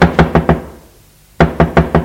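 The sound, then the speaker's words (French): Knocking at a front door comes in two crisp bursts of four raps each, separated by a short silent pause. “L'on frappe à l'entrée.”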